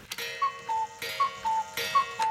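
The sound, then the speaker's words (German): A Black Forest cuckoo clock calls cuckoo three times, bellows pushing air through its pipes. Each call is a higher then lower whistled note, and each is preceded by a sharp metallic strike. “erzeugt einen Windstoß durch die Pfeife und so macht jede original Schwarzwälder Kuckucksuhr Kuckuck”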